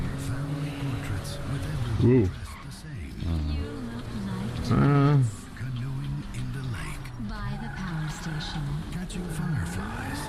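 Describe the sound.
A Ford Ranger pulls away with squealing tyres: two sharp, loud screeches over a revving engine, each lasting under a second, with people talking around them.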